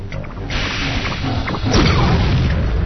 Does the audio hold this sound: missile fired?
yes